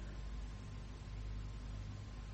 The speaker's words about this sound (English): The car's just coming up the drive.